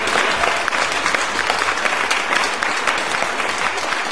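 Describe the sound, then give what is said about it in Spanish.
Loud, steady applause fills the whole stretch, a dense, even patter of clapping with no clear break or swell. “5, 4, 3, 2, 1. ¡Aplauso!”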